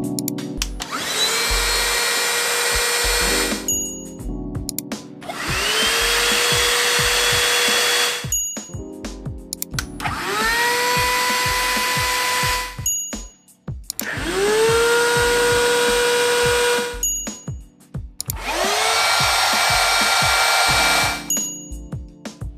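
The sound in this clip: Five cordless car vacuum cleaners run in turn during a noise test, each a loud, steady motor roar of a few seconds with high whistling tones that rise as it spins up. Brief, quieter gaps separate the runs.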